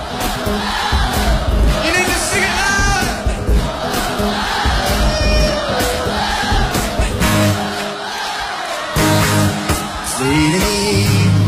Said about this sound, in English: So on this song, we are going to scream as loud as we can.